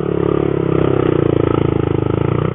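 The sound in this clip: A small 125cc single-cylinder motorcycle fitted with a massive Yoshi exhaust sets off, giving a loud, rapid, evenly pulsing engine thump that holds steady throughout, with no voices.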